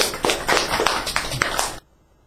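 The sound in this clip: A short burst of applause: brisk, overlapping hand claps from several people, fairly loud, stopping abruptly and leaving near silence at the end.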